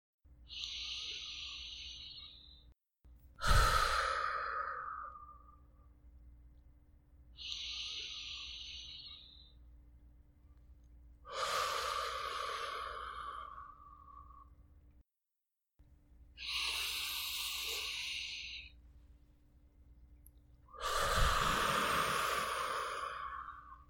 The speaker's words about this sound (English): Close your eyes and take 3 deep, slow, purposeful breaths.